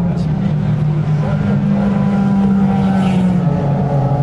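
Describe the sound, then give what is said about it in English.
Loud racing engines roar past as LMP1 and LMP2 prototypes and Corvettes pull away at the start of an endurance race, a continuous dense drone with steady low engine tones and wind rumble throughout. “There go all the LMP1s, here's the LMP2s and the Corvettes. That's the first Porsche 911.”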